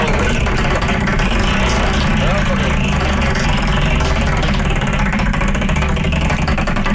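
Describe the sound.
Prize wheel with 36 slots spinning, a loud, continuous rapid ticking rattle that stays dense and even throughout.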